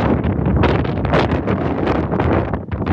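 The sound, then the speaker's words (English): Strong wind buffeting a stalled car hard enough to shake it, a loud, roaring, gusty rush that fills the whole clip with pulsing surges and no pauses. “the wind. It's shaking the whole car.”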